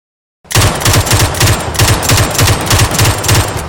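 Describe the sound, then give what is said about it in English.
Rapid gunfire from a gun in burst mode emptying a full 20-round magazine: a dense, steady stream of loud, sharp shots lasting about three seconds, with no talk. “In the burst mode, I was able to clear an entire magazine in 2.82 seconds.”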